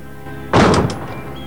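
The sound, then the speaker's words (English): A door swings shut behind someone with one solid, loud thunk, then a brief fading rumble before quiet returns. “Jane watches him close the door behind him.”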